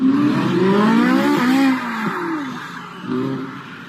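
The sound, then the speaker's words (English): A $300,000 car at a car show revs hard, its engine tone sweeping up and down in loud, wavering surges, then the sound drops to a lower, uneven level with a few brief bursts of revving toward the end. “Here's the moment that $300,000 vehicle crashes into an embankment.”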